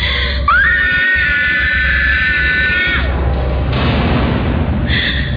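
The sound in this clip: Heavy thuds of a head banging against an iron door, made as a radio drama effect. A few dull knocks fall beneath a loud, sustained, scream-like wail and a low droning bed.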